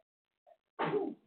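A single sneeze: a faint short catch of breath, then a sharp, breathy burst lasting under half a second against silence.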